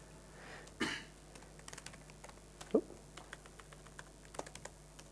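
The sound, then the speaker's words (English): Faint typing on a computer keyboard: scattered, uneven key clicks with a couple of slightly louder taps. “I'll learn to type one day.”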